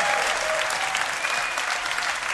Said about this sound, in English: Will you please welcome Angela Barnes, ladies and gentlemen?